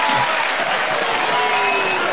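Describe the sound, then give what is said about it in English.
A crowd cheers at a baseball game: a dense, continuous roar of many voices, loud and steady throughout the short stretch. “Look at this crowd. This is great. They're jumping, they're hopping, they're cheering, and they paid to get in here.”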